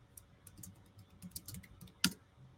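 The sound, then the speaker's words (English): Computer keyboard typing: soft, scattered key clicks tapping along at an uneven pace, with one sharper, louder click near the end. “Oh, I'm sorry. I typed it wrong here.”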